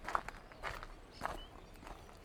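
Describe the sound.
Soft footsteps of someone walking around, a few light, evenly spaced steps at a relaxed pace, faint against a low background hiss.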